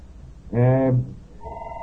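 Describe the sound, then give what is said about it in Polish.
A telephone rings during a discussion: a short, bright, harmonic electronic tone sounds for about half a second, and a second tone begins shortly after. “Przepraszam, mam telefon, będę musiał chyba go odebrać.”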